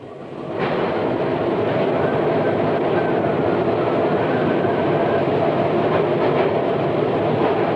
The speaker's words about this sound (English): Later, they ride on the subway.